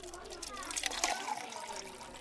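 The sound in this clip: Water is poured, supposedly bottled but looking like tap water, a light splashing trickle running beneath people talking.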